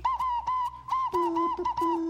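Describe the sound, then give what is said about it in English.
Morse code whistled or blown as in amateur radio calling: a clear, steady high tone broken into short and long pulses, with a second, lower tone joining in partway through. “I will blow a little code for you.”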